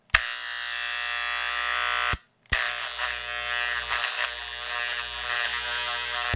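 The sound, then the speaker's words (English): A bulk tape eraser drones loudly with a cassette held next to it, giving a steady, buzzing electric hum rich in harmonics. The hum cuts out briefly once, then resumes, and its timbre wavers slightly as it continues. “It creates a magnetic field that's used to erase cassettes. And you just pull the trigger here. Now, it doesn't make a lot of noise when there's not a tape next to it.”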